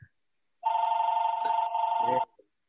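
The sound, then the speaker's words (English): A telephone ringing: one steady, warbling electronic ring at a constant pitch, fairly loud and lasting under two seconds, with brief faint sounds just before and after. “oh, that's a phone ringing. Somebody better pick that up quick.”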